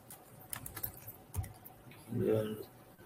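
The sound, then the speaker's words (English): Faint clicking of someone typing a name and password on a computer keyboard: a few scattered, light keystrokes over a quiet background. “So I'll just type in first and last name, first there.”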